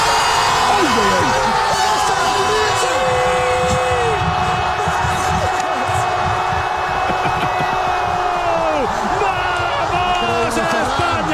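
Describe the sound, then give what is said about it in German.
Spanish football fans in Switzerland celebrate their team's World Cup win with a loud, dense roar of shouting and chanting voices, and sustained tonal blasts cut through the steady noise throughout. “Wir gratulieren und so haben die spanischen Fans bei uns in der Schweiz gefeiert gestern.”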